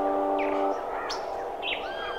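Birds chirping in a few short, high, fluttering calls and whistles, fairly faint, over a steady tonal background that fades after the start.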